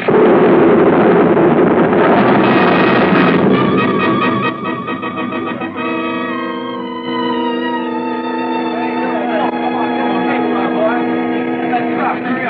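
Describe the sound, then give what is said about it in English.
A bomb explodes after falling from overhead: a loud, broad roaring blast fills the first few seconds, then gives way to a sustained lower rumble with ringing tonal layers. “The bomb! It stopped. It's overhead. Fall to the ground”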